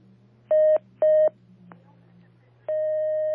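Telephone line tones mark a caller connecting to a call-in religious advice line: two short matching beeps, then a brief click, then a long, steady tone that runs to the end.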